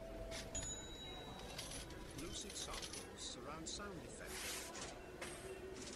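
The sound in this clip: Coins handed over as change at a shop counter give light metallic clinks and jingles, faint against steady background noise and murmur.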